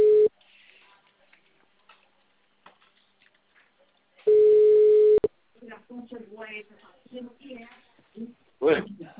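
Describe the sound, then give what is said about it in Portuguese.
Telephone ringing tone while a call is being placed: two steady, level tone bursts separated by a long pause, followed by people talking. “eu vou ligar ele, agora ele vai me xingar.”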